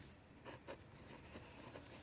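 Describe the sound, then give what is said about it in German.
Writing as someone jots notes down, a continuous run of short, scratchy rubbing strokes at low level with no talk. “Du hast noch eine Minute Zeit, weil ich schreibe noch unten rein, was wir gemacht haben.”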